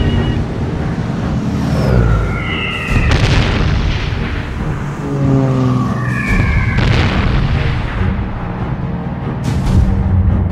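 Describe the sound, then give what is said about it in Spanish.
Bombs dropped by naval aircraft on the government house in a city come down with descending whistles and several heavy blasts. The explosions stand out loudly over a constant roaring rumble. “La primera bomba sobre la casa de gobierno.”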